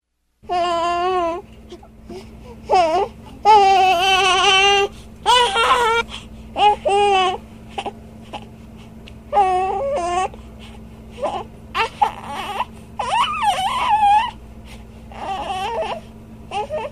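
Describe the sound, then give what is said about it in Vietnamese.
An infant screams and cries loudly in repeated wailing bursts with short pauses between them, pitch wavering within each cry, over a steady low hum. “Ông Jerome lúng túng vì đứa bé la hét ầm lên.”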